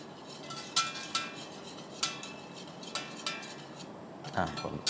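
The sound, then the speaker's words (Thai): A utensil stirs a thickening mixture in a pot, giving a few sharp clinks and scrapes against the sides over a soft, steady background, with a busier cluster of scraping near the end. “ช่วงขั้นตอนนี้เป็นขั้นตอนที่ต้องใช้เวลาในการกวนหรือว่าผสมให้เขาขึ้นเนื้อให้ดีขึ้นนะคะ”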